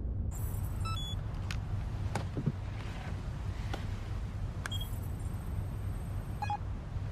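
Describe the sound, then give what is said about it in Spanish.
A guard's handheld scanner beeping as he scans passengers behind their ears: two bursts of thin, high-pitched electronic chirps and stepping tones, with a few sharp clicks between them, over a steady low rumble. “El guardia escanea detrás de las orejas de los pasajeros. En el cuarto de control, una pantalla muestra la información de los pasajeros escaneados.”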